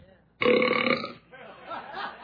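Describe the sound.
A baby burps while being burped, one loud rough belch under a second long, followed by quieter low noise.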